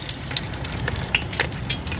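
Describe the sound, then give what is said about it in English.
Locusts deep-frying in hot oil with a pinch of salt give a steady, loud sizzle, dense with fine crackles and scattered sharp pops throughout. “Well, this is one of my favourite ways to have them. It's just deep fried with a tiny wee pinch of salt.”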